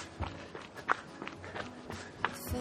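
Footsteps of people running on a beginner fitness run: soft, quiet footfalls land in an irregular patter of many light thuds, some slightly sharper than others.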